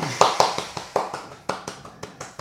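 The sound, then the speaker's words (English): Hand clapping from players at a tabletop role-playing game session: a short run of sharp, distinct claps at a fairly regular pace, each one crisp and separate rather than blending into a roar. “They all clap.”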